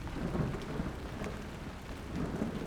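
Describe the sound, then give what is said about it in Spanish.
Heavy rain pours over a city at night during a thunderstorm, a dense continuous hiss with a low thunder rumble beneath it and no voices. “La lluvia era una cortina que descendía de grandes y abultadas nubes grisáceas que pendían bajas sobre la ciudad.”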